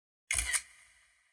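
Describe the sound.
Camera shutter click with flash: one sharp, quick double click, followed by a faint high ringing that fades out.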